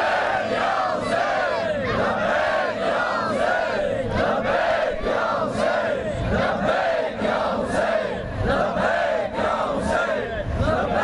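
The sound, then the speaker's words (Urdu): A crowd chants the religious slogan Labbaik ya Hussain, many loud rhythmic shouts repeated in steady succession and sustained throughout without a break. “اگر نعرہ لگانا ہے تو دونوں ہاتھوں کو بلند کرے, لبیک یا حسین.”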